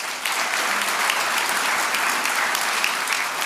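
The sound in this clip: An audience applauds to welcome a league commissioner at a recognition event in St. Louis. Dense, steady clapping fills the whole stretch without a break.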